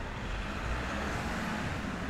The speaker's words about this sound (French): Des voitures.